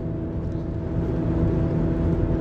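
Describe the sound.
Steady low road rumble and engine hum from inside a car driving home from work, constant and continuous with no voices.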